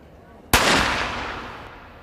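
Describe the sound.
A single gunshot rings out at an Olympic shooting final, the decisive last shot of the contest. One sudden loud crack is followed by a long, gradually fading tail.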